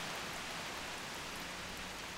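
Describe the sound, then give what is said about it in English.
Rain pouring down as a soft, even, continuous hiss, steady and unbroken from start to end, with no voices. “And rain fell on the earth 40 days and 40 nights.”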